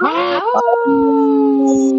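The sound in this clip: A person imitates a wolf howl: one sustained vocal howl that opens with a rough, breathy onset, then settles into a long, steady tone that sags slightly in pitch.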